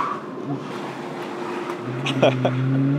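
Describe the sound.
A car engine hums during police cadet driving practice, a low steady drone that grows louder toward the end, heard under people talking.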